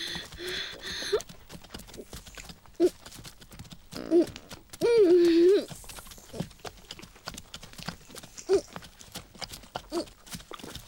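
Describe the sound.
A ridden horse walks with hooves clip-clopping in a steady, moderate rhythm, joined by a louder, rougher stretch midway.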